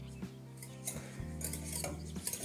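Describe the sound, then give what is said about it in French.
A whisk works through caramel in a pan over fairly low heat, melting it as it stirs. A few soft scraping, clinking strokes sound faintly over a steady low hum. “Et au fur et à mesure, en fouettant, en chauffant, ça va faire fondre ce caramel au bout du fouet.”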